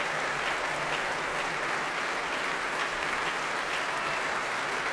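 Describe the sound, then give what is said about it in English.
Applause from a promenade concert audience giving an orchestra a standing ovation: dense, even clapping that holds steady and loud throughout, with no breaks or single claps standing out. “The orchestra's standing now. Promenaders cheering, hands in the air as they clap.”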